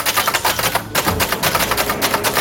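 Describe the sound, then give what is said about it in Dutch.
Dense, rapid clatter of keys being hammered on a whole row of orange typewriters set up in the library in Zwolle, with many sharp overlapping clacks forming a steady, busy racket throughout and no voices. “Hij zette in de bibliotheek in Zwolle een hele rits oranje typemachines neer waar mensen lekker op kunnen rammen op die toetsen.”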